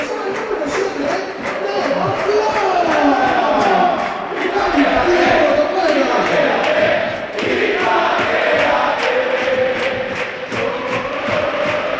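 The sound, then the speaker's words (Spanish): Football crowd chanting for a player: a loud, dense mass of voices keeps up a rhythmic chant through the whole twelve seconds, with steady volume and brief dips. “El público que quiere Inma Ruiz, claro que sí. Inma, quédate, Inma, quédate.”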